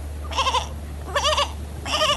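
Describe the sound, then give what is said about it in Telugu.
A male goat tied to a tree and meant for sacrifice bleats three times, each cry wavering and tremulous, with short pauses between them, over a low, steady hum. “దూరంగా ఒక చెట్టుకు కట్టేసిన బలి ఇవ్వబోయే మేకపోతు”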